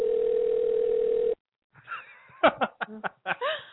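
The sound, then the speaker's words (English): A telephone ringing tone heard on a call: one steady, even electronic tone that cuts off abruptly, then a brief silence before people laugh. “How many fucking rings does this have?”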